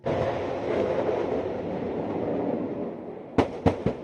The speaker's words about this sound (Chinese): 这是台军的海马斯多管火箭系统成军以来首度实战化实弹射击操演。